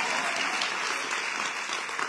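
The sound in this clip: An audience applauds during a speech by a Chicago community organizer. The clapping is dense and continuous at a moderate level, with no voices over it, and holds steady from start to finish.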